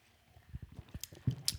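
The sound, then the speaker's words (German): Sipping apple wine from a ribbed Gerippte glass: a few soft, low gulping thumps and a couple of sharp, bright mouth clicks, quiet and with no talk. “wir nehmen noch hier einen Schluck aus dem Gerippten. Probieren so. mal so, wie es in den meisten Fällen gemacht wird.”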